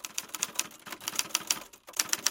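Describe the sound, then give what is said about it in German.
Typewriter keys clatter in a rapid, uneven stream of many sharp mechanical clicks and taps, moderately loud and alone, with a brief lull near the end before the typing resumes. “Früher hat man sowas ja auf der Schreibmaschine gemacht. Da hat man in die Tasten gehauen und das hat man hat dann immer so ein bisschen geknattert.”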